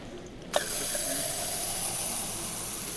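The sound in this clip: Healing spa water pouring from a copper tap into fine porcelain cups in a Bad Kissingen pump room. A brief click is followed by a steady, rushing hiss of flowing water.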